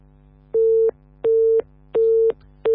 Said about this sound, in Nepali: उहाँको सँग सम्पर्क विच्छेद भएको छ